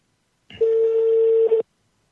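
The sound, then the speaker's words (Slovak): A single steady, mid-pitched telephone tone lasting about a second, loud and alone, as a phone call fails to connect. “No vidíš, dneska tak sa nevieme dovolať.”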